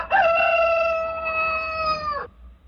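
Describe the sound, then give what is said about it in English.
A rooster crows once: a single loud, steady harmonic call lasting about two seconds that dips slightly in pitch at the end, heard alone with no talk. “We all heard the rooster crowing as Jesus had said”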